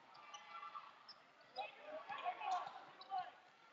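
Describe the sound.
A basketball dribbled on the court during a boys' game between the Flathead Braves and Glacier Wolfpack, soft repeated bounces beneath a commentator's continuous talk.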